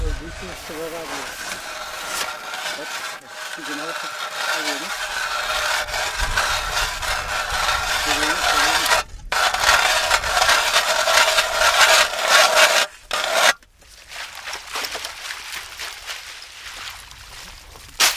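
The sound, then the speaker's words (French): A large hand auger boring a hole through ice for fishing: a harsh, steady rasping and scraping that runs for long stretches, broken by a few brief pauses, turning rougher and lower near the end. “Ici, on fort avec une sorte de grande chignole à la main, un trou dans la glace.”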